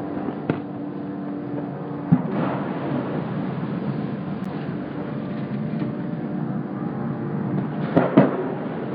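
Tank shelling in a combat area: a few dull booms and sharp thuds, one near the start and a pair near the end, break through a constant low, rumbling background.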